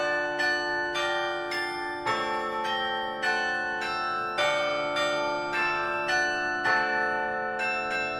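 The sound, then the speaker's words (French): Carillon bells of Flemish towns ring out in a steady run of many struck notes, each a bright metallic strike that leaves long, overlapping tones hanging beneath the next. “le carillon des villes de Flandre, nous amène à Cambrai en 1830.”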